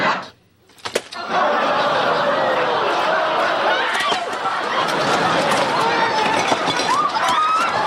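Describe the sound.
Crowd commotion as people flee in panic while turkeys hit the ground like sacks of wet cement. After a brief quiet start and a few sharp knocks, dense running, chatter and scattered laughter continue loudly to the end.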